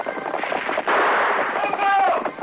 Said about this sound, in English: Red Wolf whirled, leveled his single-shot rifle over his pony's neck and fired. The bullet clipped hair from Silver's flying mane. An answering shot from the masked man's Colts broke the chief's gun stock.